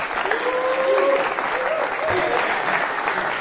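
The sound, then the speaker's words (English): Audience applause at a live reading event, dense continuous clapping that stays loud and even throughout, with a few voices calling out over it. “Give him a hand.”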